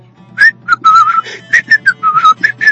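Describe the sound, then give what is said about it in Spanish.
Cheerful human whistling: a bright, loud melodic run of many short, clear notes mixed with a few held tones, moving up and down in pitch, heard alone without talk. “y silbaba y silbaba y silbaba de alegría.”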